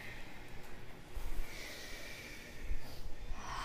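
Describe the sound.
Slow, audible breathing in a yoga class: soft airy breaths rise and fall in a calm rhythm, with two fuller swells of breath standing out.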